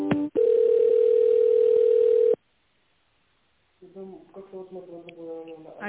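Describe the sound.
Steady single-pitch telephone tone while an office call is transferred to a procurement department head; it starts after a brief click, holds loudly for about two seconds, then cuts to silence before a voice begins speaking.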